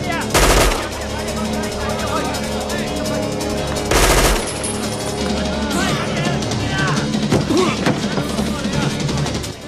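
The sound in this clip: Gunfire rings out in a gun battle as a gunman shoots at a man who rolls over and fires back outside a storage room. Two loud, sharp bursts stand out amid rattling shots, with voices talking throughout.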